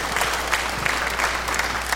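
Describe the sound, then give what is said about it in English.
A church audience claps its hands in a steady, dense round of applause that holds at an even loudness throughout. “Come on, somebody in the house, shout amen. Amen. Amen. And put your hands together and welcome in our global online congregation.”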